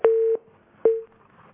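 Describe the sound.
A telephone tone sounds after a call is cut off: two steady mid-pitched beeps, the first a little longer than the second, alone against silence.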